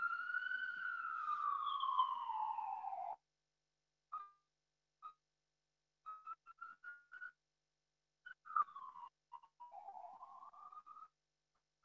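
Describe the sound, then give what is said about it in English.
Ambulance siren, faint: a long wailing tone sliding downward, then broken, fading fragments and a later swooping wail that dips and rises again, with no voices. “listen to the ambulance.”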